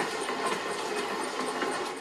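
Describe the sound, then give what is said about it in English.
Passenger trains carrying evacuees roll into a station, a steady rumbling clatter of wheels on rails with faint rhythmic clicks, continuous and fairly loud, with no voices. “trains with evacuees roll in. Train Poltava-Uzhhorod is arriving to track number 3.”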